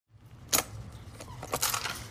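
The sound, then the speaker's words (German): A coin goes into a shopping cart's lock and the chain springs free: a few sharp metallic clicks and clacks, the loudest near the start, over a soft rattling jingle of metal. “Die Wagen sind alle mit einer Kette festgemacht. Damit die Kette abgeht, braucht man eine Münze. Die dürfte ich in den Schlitz am Wagen stecken.”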